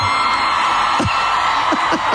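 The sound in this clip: A stadium crowd of some 90,000 people screams in a dense, loud, unbroken roar, with several sharper whoops briefly rising above the wash of voices.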